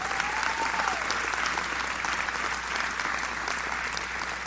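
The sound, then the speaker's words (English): Audience applause at a prayer gathering: dense, steady clapping that fills the whole clip at an even, fairly loud level without any break. “So you can applaud this lady one more time.”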